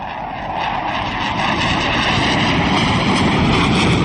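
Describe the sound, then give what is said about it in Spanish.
Roar of a Spanish Air Force fighter jet flying a loop just after takeoff: a continuous, broad, rushing engine roar that grows steadily louder over a few seconds, with no voices. “Ya hace el primer looping, que lo hace completo, ¿vale? Para luego ya encarar otra vez, mirando el eje de pista. Y aquí viene de nuevo.”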